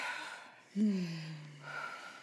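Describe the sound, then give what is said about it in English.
A deep breath is taken: a single sharp, gasping intake trails into a low, voiced sighing exhale. It is short and fairly clear, set between bits of quiet talk. “But first we're going to take some deep breaths.”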